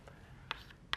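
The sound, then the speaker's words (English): Writing on a board during a dynamic programming recitation: two short, faint scratchy strokes about half a second apart, over a low steady hiss. “So let's write this down on the board.”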